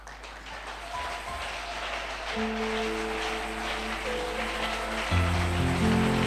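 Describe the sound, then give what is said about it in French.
A church audience claps and cheers to acclaim the Lord. A steady rain-like patter of hands builds slightly, while sustained keyboard tones enter underneath and grow fuller toward the end. “Est-ce qu'on peut acclamer le Seigneur? Est-ce qu'on peut faire mieux que ça?”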